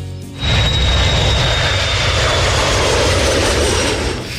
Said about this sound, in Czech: Je li vam dobro poznata ovaj zvuk? Evo, bit će još poznatiji. Od jula meseca bi u Nišu trebalo stalno da bude ovako, bar iznad niškog aerodroma Konstantin Veliki.